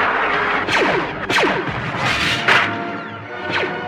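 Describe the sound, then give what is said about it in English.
Blaster fire on a landing platform in a Star Wars audio drama: several sharp, downward-sweeping zaps cut through a rumbling, crashing background. “Under fire, they dash across the landing platform, finally reaching their only hope of escape, the Millennium Falcon.”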